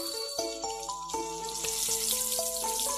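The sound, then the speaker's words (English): Sizzling of food as a wife cooks at home, a steady hiss running under a simple melodic tune of short plucked notes. “My wife is cooking something delicious.”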